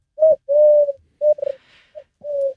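Common wood pigeon cooing: about six soft, low hooting notes, some drawn out and some short, in an uneven rhythm, clear and alone with no talk.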